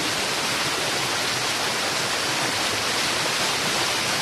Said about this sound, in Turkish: Onur'la beraber ben suyun sesini de dinletmek istiyorum size. Çünkü çok yoğun bir şekilde geliyor.